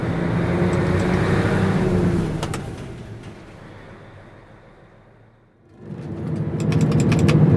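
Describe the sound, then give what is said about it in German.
A 24-tonne truck drives off a fairground lot at the end of a marksmen's festival. Its engine gives a steady, heavy rumble that sinks to near quiet midway, then swells loudly again. “rollt mit dem ersten 24-Tonner vom Platz.”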